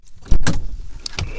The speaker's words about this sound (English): Instead, I can just go ahead and get out of the car.